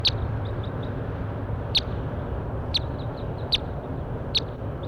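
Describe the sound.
A recorded bird gives five sharp, high chirps at uneven intervals, with softer short pips between them. A steady low noisy rumble runs underneath.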